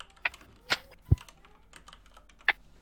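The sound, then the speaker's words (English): Sparse keystrokes on a computer keyboard as someone types a search during a fifth-edition tabletop roleplaying game session, a few scattered clicks of varying loudness over a faint, steady background. “You just type in random encounters”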